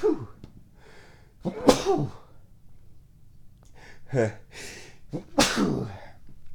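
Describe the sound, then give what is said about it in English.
A man sneezes hard, with sharp, loud bursts of breathy, hissing noise rising out of quieter breathing and throat sounds. “As he sneezes his head off.”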